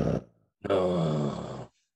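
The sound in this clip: A person groaning: a brief grunt, a short silence, then a longer voiced groan of about a second that fades out, in reaction to talk about a video game.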